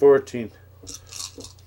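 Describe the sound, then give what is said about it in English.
Dice clatter as they are rolled, making a few brief, bright, hard clicks after a short voiced sound at the start. “Give me four of these Canadian dice.”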